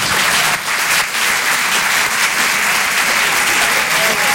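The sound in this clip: A comedy club audience applauds, a loud, dense and steady wash of clapping that barely dips for the whole stretch.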